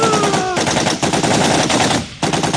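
Gunfire sound effect, a rapid automatic burst of densely packed, harsh shots that runs loud and nearly unbroken throughout.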